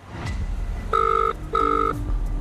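A telephone call being placed: two steady electronic ring tones, each under half a second and separated by a short gap, sound over low background noise.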